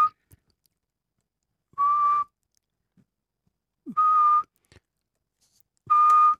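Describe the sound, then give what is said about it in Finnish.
A person whistles an imitation of a Eurasian pygmy owl's call: three steady, even-pitched notes spaced about two seconds apart, with the tail of another at the very start, clear against silence. “eli varpuspöllön vihellys. Mä kokeilen kanssa.”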